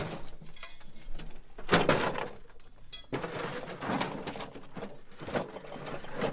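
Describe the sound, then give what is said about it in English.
Rummaging through a cupboard gives scattered rustling, knocks and scraping at a low level, with a louder clattering burst partway through and a few sharper knocks later. “Tell you what, let's go and have a rummage in the cupboard and see what we can find.”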